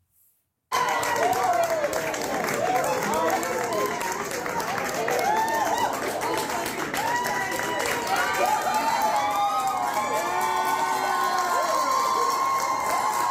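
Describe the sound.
Nebraska Democratic state legislators cheer after an abortion bill failed. Loud, sustained cheering, whoops and clapping burst in after a moment of near silence and carry on at full strength to the end.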